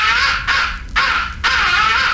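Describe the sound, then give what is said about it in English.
An imitation crow roost call, used near a roost in the late evening, gives four harsh, raspy caws run together with barely a pause, loud and alone. “The fifth and final essential call is the roost call. It is a deadly call. Use it when you're any roost or near a roost in the late evening and crows are coming in.”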